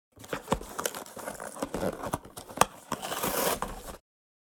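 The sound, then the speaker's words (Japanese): Packaging torn open on a boxed set of sweets: sharp rips, crinkling and crackling plastic and paper in a few bursts over several seconds, then silence. “先ほどのスイーツセットを開封して”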